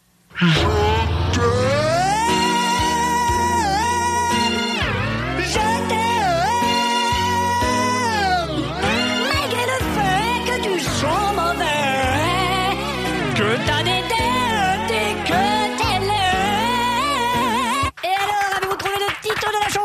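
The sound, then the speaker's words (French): A song plays from a vinyl record turned by a pedal at irregular speed. The singing and backing wobble and slide in pitch as the speed drifts, continuous and loud throughout. “le jeu consiste à pédaler sur le pédalier que vous voyez. Et ça, ça fait tourner un disque vinyle à une vitesse irrégulière, mais vous devez deviner quand même quelle est la chanson du disque.”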